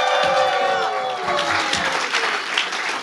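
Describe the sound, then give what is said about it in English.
An audience cheers and applauds loudly as performers walk onto the stage, with thick, steady clapping and scattered whoops and shouts riding over it. “each time they walk on stage, I want you to make a lot of noise and make them feel welcome.”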